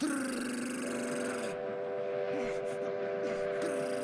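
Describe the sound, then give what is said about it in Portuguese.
A train horn sounds on a railway line as a train approaches. The steady, multi-tone blare holds over a low rumble for the whole stretch, with no talk. “Eu quero desviar do trem.”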